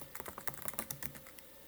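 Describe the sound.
Quiet, rapid typing on a computer keyboard as a list is written down, with many light key clicks in uneven bursts and no voices.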